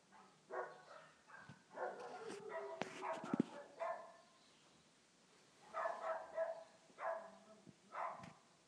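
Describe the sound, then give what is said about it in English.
Neighbourhood dogs barking in the morning on a residential street: several bursts of barks and yips come in quick clusters, faint overall, with a few quieter gaps between them. “I think everyone on this street has a dog, and you wake up to this in the morning.”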